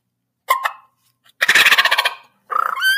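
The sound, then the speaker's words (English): A turkey gobble made by a person on a mouth call (a diaphragm turkey call): three loud, rattling bursts, the middle one longest and most rapidly pulsed, with no talk over them. “how do you gobble on a mouth call? Maybe that's not as easy explained here, but. Let me see. Let's find one. I got a bunch of mouth calls here.”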